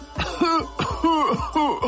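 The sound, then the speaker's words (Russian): A voice imitating an annoyed cough, several hoarse, voiced coughs, each falling in pitch, in a quick uneven run with no other sound. “С досадой кашлянул амбарный замок и продолжал.”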